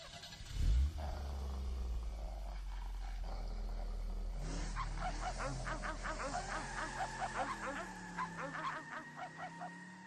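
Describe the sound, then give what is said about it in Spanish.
A car engine starts with a brief thump, then settles into a low, steady rumble, while dogs nearby let out a series of repeated tonal howls and barks over the idling engine. “si entras en tu vehículo mientras los caninos están cerca, mientras no conduzcas, no te dirán nada. Pero desde que enciendes el motor,”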